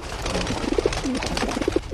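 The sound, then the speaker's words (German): Cooing of a pigeon, a messenger pigeon: a few short, low, soft coos, some in quick pairs, sound over a steady rustling noise with no talk. “Eine Taube war eine Postbote früher.”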